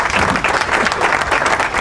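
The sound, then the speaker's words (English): An audience claps to welcome a guest onto a show, producing loud, sustained applause of many hands at an even intensity throughout. “Please put your hands together and welcome from the Lost 45s, Barry Scott.”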